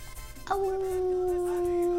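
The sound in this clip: A wolf howls in one long, sustained tonal note that starts abruptly and holds a fairly steady pitch, drifting slightly lower as it continues.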